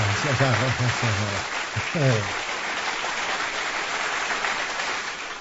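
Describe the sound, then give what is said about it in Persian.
Steady applause honours a singer who performed a song in their own voice, a dense even clatter that holds for about five seconds, with voices calling out over the first two seconds. “آفرین آفرین افتخارش رو دست بزنی”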